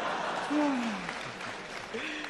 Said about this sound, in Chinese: 还有这么多的观众给咱们鼓掌